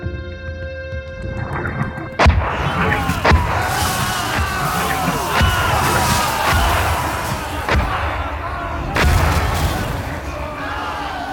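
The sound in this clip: Cannon fire in a battle: several heavy booms strike at irregular intervals over a continuous din of shouting voices and animal-like cries.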